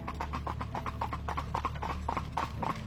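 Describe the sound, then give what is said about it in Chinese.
Hooves of a horse pulling a cart clip-clop in a steady, even rhythm, many quick hoofbeats over a low continuous hum. “马蹄声越来越近，就在马车要从爷爷的身边经过的时候，竟然停了下来。”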